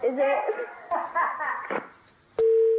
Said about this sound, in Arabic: قطع اتصال.